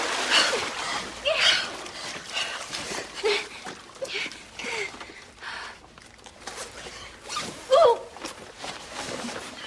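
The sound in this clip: Water splashing and sloshing as a person climbs out of water in a walled cave chamber, with a series of irregular splashes of varying strength and a sharper, louder burst near the end.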